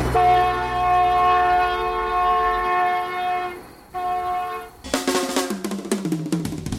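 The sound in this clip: Train horn and rolling train in a radio jingle: a long, sustained horn blast, a short break and a second blast, then rhythmic clickety-clack rattling of wheels on rails, with no voices.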